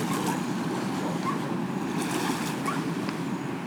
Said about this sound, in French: C'est pour ça que tu entends le ressac de la Garonne derrière, juste à côté de moi.